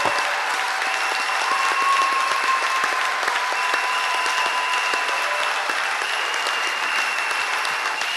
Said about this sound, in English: Secondes, acclame le Seigneur. 5 secondes à l'heure, clap for the Lord.